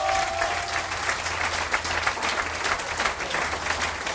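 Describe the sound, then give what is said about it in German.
An audience applauds a folk music band, with many hands clapping in a dense, continuous wash that holds an even, moderate level throughout. “Ja, da gehört auch mal Applaus”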